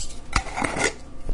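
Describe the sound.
Whole black peppercorns and fennel seeds go into a little stainless steel bowl, making a few sharp, bright clinks and small rattles at irregular intervals with no talking.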